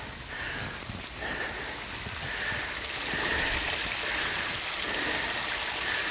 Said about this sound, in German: wir sind hier an einem Brunnen. Hier läuft Wasser über Moos, schön in einen Abfluss am Boden.